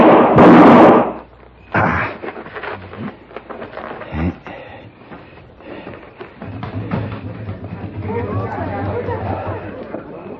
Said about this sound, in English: Somebody took a shot at me. They ran down that alleyway.